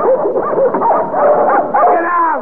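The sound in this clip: Dogs yipping and whimpering in a rush of several animals: high, overlapping whines and short yelps that run continuously at a fairly loud level, with the whimpers sliding up and down in pitch.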